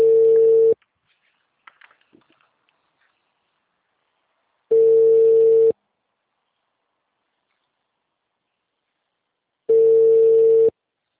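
A mobile phone's ringback tone while a call connects: three loud one-second beeps of a steady low tone, separated by about four seconds of silence, with a few faint clicks after the first beep.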